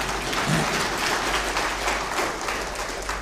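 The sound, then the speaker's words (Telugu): An audience applauds, giving dense, steady clapping at an even level throughout with no talk over it. “మీకు నమ్మకం ఉంటే కొట్టండి చప్పట్లు”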